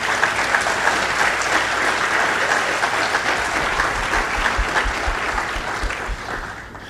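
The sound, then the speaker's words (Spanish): Congregation applause at a bilingual church gathering honors two pastors for 40 years of service. The clapping is sustained and busy, then tapers off toward the end. “Can we give them a hand? ¿Podemos darles un aplauso?”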